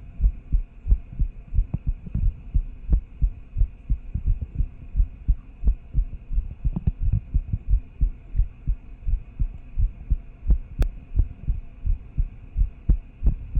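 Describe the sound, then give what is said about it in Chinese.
Fast heartbeat pulses in a steady, rapid rhythm, low thudding beats repeating about twice a second for the whole stretch over a faint constant hum, with no talk. “心跳本来就偏快”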